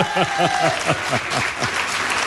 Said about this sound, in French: et vous pouvez les applaudir.